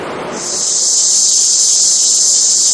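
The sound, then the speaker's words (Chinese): Cicadas drone loudly on a summer day, a continuous high-pitched, hissing buzz that swells in within the first half second and then holds steady and unbroken to the end. “这夏天知了来了， 蝉鸣声， 蝉鸣声。”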